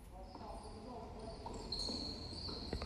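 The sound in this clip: Basketball being dribbled up the court during a game. A few faint bounces sound under a steady background, with a commentator talking over the play.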